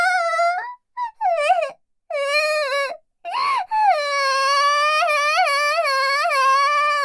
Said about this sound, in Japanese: てめえ、何あざとい嘘泣きしてやがる。